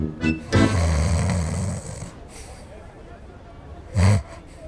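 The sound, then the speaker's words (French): A storyteller's voice imitates an animal character snoring while being massaged: a few rough, snorting snores, one long and drawn out, then a short, loud snort near the end. “il ronfle”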